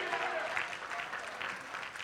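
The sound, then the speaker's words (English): An audience claps their hands during a sermon: faint, even applause of many hands, steady throughout and with no voice on top. “Clap your hands and shout hallelujah.”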